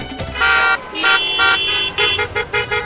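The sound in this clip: Car horn honks make up a radio traffic-segment jingle. Several loud, bright toots of varying length sound in a quick rhythmic sequence over faint traffic noise, with no talk.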